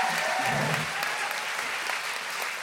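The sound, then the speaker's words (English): Dense, steady applause from an audience welcoming a guest onto the stage at a live talk event, holding at a fairly even level throughout. “Please welcome to the stage, Mariam Khan! Give it up!”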